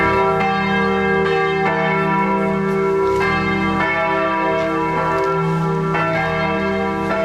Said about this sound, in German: Und ja, und jetzt habe ich das Gefühl, ist er irgendwo an der Kirche. Woher ich das Gefühl habe? Naja, hören Sie mal.